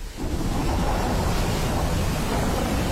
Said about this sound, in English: Relax and unwind to the sound of the Wicklow Mountains in winter.